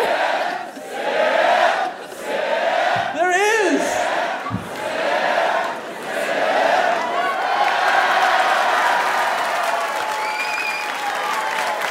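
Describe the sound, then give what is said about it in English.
A crowd chants and cheers together, a loud, continuous roar of many voices with rhythmic shouted calls, some rising in pitch, swelling and easing in waves throughout. “this is the most supportive crowd. They'll chant even in moderation.”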